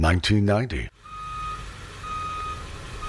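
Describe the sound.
A truck's reversing alarm beeps steadily in a high tone while it dumps material in a driveway, with a low engine rumble beneath and a brief voice at the start.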